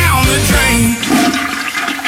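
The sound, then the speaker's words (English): A toilet flush used as a sound effect in a plumbing advert: one loud, sustained rushing and gurgling of water that fills the whole clip, heard alone. “Reds On Time Plumbing will flush your worries.”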